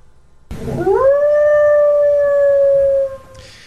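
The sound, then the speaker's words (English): A coyote with a limp howls in a backyard: one long, loud howl that swoops upward at the start, then holds a steady pitch for a couple of seconds before cutting off. “when we had the audio of the howling coyote in the backyard”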